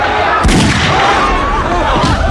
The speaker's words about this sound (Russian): Мэрдок стреляет в толпу.